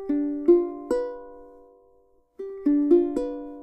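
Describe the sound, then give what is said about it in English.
Ukulele strings plucked one at a time with the thumb and fingers, each note ringing out separately: a few slow, spaced plucks, a short pause, then a run of four notes. “What you're going to do is try and pluck one at a time, thumb, index, middle, ring. If I did that slowly, it would sound like this.”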